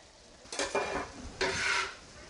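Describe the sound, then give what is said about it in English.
Two bursts of scraping and loud sizzling as chopped onions, then peppers, are scooped into meat browning in a pan over medium-high heat for sloppy joes, with quieter sizzle between and after. “I'm going to scoop up the onions and add them to the meat. And then I'm going to scoop up the peppers and add them to the meat.”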